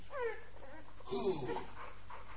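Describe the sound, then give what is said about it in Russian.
A dog whimpers in a few thin, high, wavering whines, one early and a longer one in the middle, over a low, steady background hum. “Собака?”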